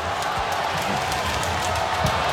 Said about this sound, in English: And the crowd coming into it now, too. Oh, yeah, they're a big crowd.